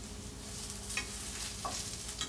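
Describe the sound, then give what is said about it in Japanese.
Sizzling of microwaved broccoli and bacon frying in a pan: a steady, fairly quiet hiss with a few light clinks and scrapes of stirring. “あーいい感じかも焼き加減。レンチンしたブロッコリーと、ベーコン入れて味付けして完成みたいな感じな”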